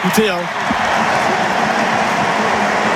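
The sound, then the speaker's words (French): A stadium crowd roars an ovation as a star French forward is substituted off the pitch, with only about 3,000 French fans in the ground. It is a loud, dense, continuous wash of crowd noise with a voice briefly at the start. “écoutez l'ovation pour Kylian Mbappé, et il n'y a que 3000 Français, je vous rappelle, dans ce stade. C'est une ovation mondiale.”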